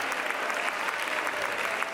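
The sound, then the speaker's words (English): A church audience claps during a worship service, a dense, even wash of applause that holds steady at a moderate level throughout, with no distinct voices. “Let's stop for a minute. Let's clap our hands.”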